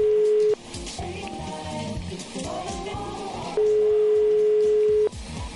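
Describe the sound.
Telephone ringing tone as a radio station dials a prize winner: a short steady tone at the start, then a longer one of about a second and a half. Background music plays throughout.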